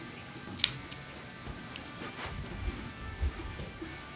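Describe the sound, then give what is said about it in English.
Cigar being cut with a Cassetti multi-cutter V-cut: one sharp, crisp snip near the start, then a few fainter clicks and handling noises. “All right, but I am going to use the Cassetti multi-cutter V-cut.”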